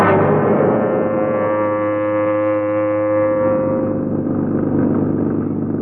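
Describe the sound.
An old taxi's engine runs with a steady, loud, droning hum. The tone stays even and unbroken throughout, with no voices.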